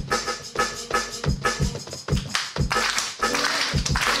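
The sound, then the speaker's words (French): A live finger drumming performance produces a quick rhythmic groove of tapped percussion. Punchy low hits alternate with sharper, crisp strikes in many repeated beats at a steady pace, with no talking. “Je suis finger drummer, je fais des instruments en live. Tu fais... Ah vas-y, tu peux nous montrer 10 secondes.”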